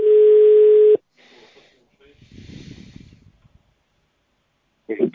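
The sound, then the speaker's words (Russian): A telephone busy-signal tone, one steady, pure beep held for about a second and then cut off. Faint hiss and muffled line noise follow, ending in a short burst of sound. “Абонент разговаривает по другой линии. Please hold on for answer or call back later. The number is busy.”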